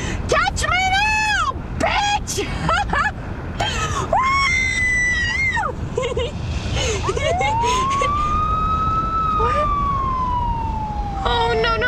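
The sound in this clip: A police car siren wails as the car pulls up behind another vehicle on a dark, empty highway: one long, loud rising-then-falling wail in the second half, after a few high, shrill, wavering cries.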